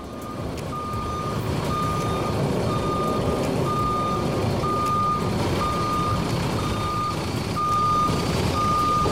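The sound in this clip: A truck's reversing alarm sounds a steady series of evenly spaced, high-pitched beeps over a continuous low engine rumble.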